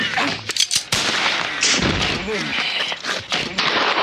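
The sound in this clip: A rifle fired from a church tower over a village square, a few sharp loud cracks close together near the start, followed by voices and commotion.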